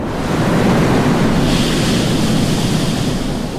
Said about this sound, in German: wenn das braune Wasser unter ohrenbetäubendem Lärm aus den Schleusen des Xialangdi-Staudamms in China schießt, die Anfangsszene von Watermark